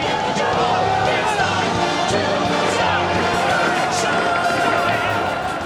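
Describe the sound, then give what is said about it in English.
Dense, loud crowd din from hundreds of cane-wielding demonstrators protesting in the streets of New York over the shutdown of Broadway theaters. It continues steadily for the whole stretch, with overlapping voices and no clear pauses. “That's the sound of hundreds of cane-wielding demonstrators taking to the streets of New York today to express their outrage over the shutdown of the city's Broadway theaters.”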